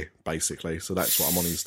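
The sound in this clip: Pepsi Max poured from a bottle to top up a vodka, heard as a steady bright fizzing hiss under a man's talking.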